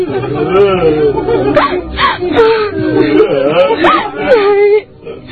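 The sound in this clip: Village mourners sob and wail in grief, their loud voices moaning in long wavering pitch glides that overlap continuously, then cut off sharply near the end.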